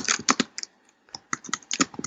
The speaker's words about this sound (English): are you typing? Oh. Uh-oh. Are you there? Something is clicking.